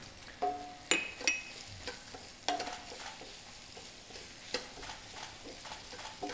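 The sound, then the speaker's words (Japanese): Chopped ingredients being stir-fried in a frying pan to brown them, with several sharp clatters of a utensil against the pan over a steady, low sizzle. “なんでこいつをしっかりと炒めていきます。”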